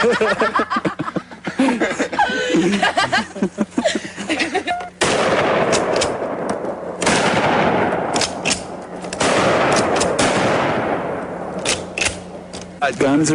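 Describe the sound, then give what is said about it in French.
Loud booming blasts from pump-action shotguns fired in a forest, with a few heavy shots ringing out between stretches of voices and laughter. “les deux copains jouent avec d'autres camarades avec des fusils à pompe, oui, des fusils à pompe, dans une forêt.”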